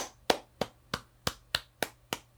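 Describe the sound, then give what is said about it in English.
Eight sharp, evenly spaced hand claps given as a round of applause for a guest, sounding like a single pair of hands rather than a full crowd, fairly faint, with no voices. “There's your round of applause.”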